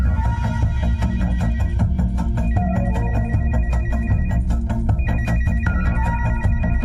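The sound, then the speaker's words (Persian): A phone ringtone for an incoming call sounds loud and unbroken, a repeating pattern of bright electronic tones over a steady buzzing throb, with no voices. “خدای من، مامان آلن داره زنگ میزنه. آلن داره زنگ میزنه، بعدم با تماس میگیرم.”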